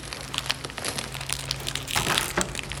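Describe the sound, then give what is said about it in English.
Plastic wrapping being pulled off a large box, a steady crinkling rustle with many small crackles that grows briefly louder and coarser near the end. “Let's take the plastic off.”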